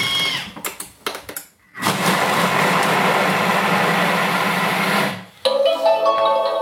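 A kitchen food processor chops onions at speed 5: a loud, steady whirring roar that lasts about three seconds, framed by short clattering handling noises before and after.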